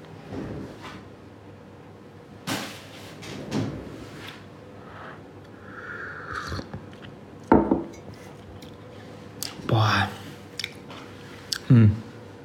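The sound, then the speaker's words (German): Someone drinks rosehip tea and removes the tea bag: soft wet sipping and mouth sounds come with scattered light clinks and handling noises, several brief sharper bursts spaced out over a quiet background. “Naja, ich trinke erstmal einen Schluck Tee, der ist nämlich mittlerweile durchgezogen. Mal den Beutel entfernen.”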